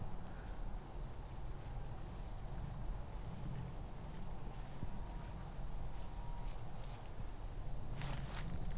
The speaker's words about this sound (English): Warm enough to still have some insects going.